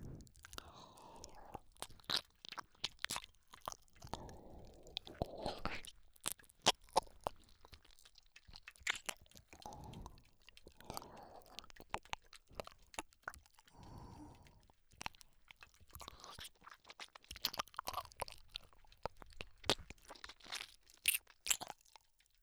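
Crunchy chewing while eating, many crisp, irregular bites and crackling crunches, quiet and close, with soft breathy pauses between them.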